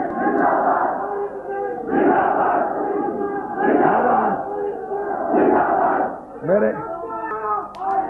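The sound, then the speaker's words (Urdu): A crowd at a Shia religious gathering chants slogans in unison, loud bursts of many voices rising and breaking off in a repeated call-and-response rhythm. “میں عرض کروں گا میرے لیے نعرہ مت لگائی”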